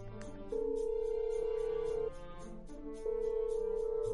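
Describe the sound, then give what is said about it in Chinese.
Ringback tone of a satellite phone call placed on speakerphone: two long, steady mid-pitched tones separated by a short pause, over a faint background hiss. “他从自己背包里拿出一部卫星电话来，直接免提拨通了胡说的号码。”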